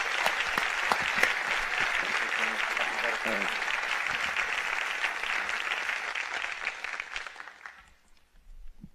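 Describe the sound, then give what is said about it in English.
Warm applause from a church audience welcomes a guest speaker to the platform, a loud, steady wash of many clapping hands that holds for several seconds before tapering off near the end. “Come on, can you give Lee a great big hand? Come on, guys, let's welcome him.”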